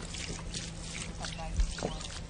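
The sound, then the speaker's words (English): Water poured from a container onto newly planted flowers at a granite monument, a continuous soft trickling splash in steady background noise, with one brief louder splash toward the end. “Now you take and you gotta water them all up. Does it have to be empty? Yeah, empty it all in there. They need a good watering.”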